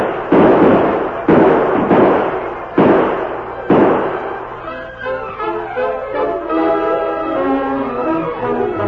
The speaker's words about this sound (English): Open fire, men. Drive them back.